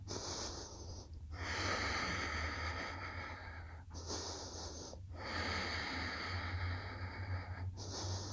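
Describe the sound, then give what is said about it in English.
Slow, deep breathing in and out through the nose during a yoga pose, heard as a steady, airy rush of breath broken by brief pauses between breaths. “Deep breaths in and out through your nose.”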